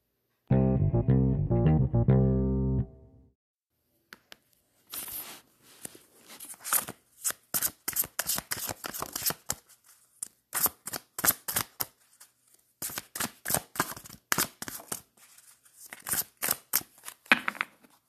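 Tarot cards are shuffled for a reading, with many rapid, crisp riffling snaps in irregular bursts after a brief musical opening.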